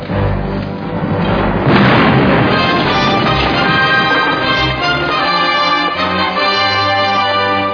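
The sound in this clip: Cannon fire from a sailing warship: a heavy booming blast rises out of a constant, loud rumbling roar and then gives way to sustained, noisy rumble that continues to the end.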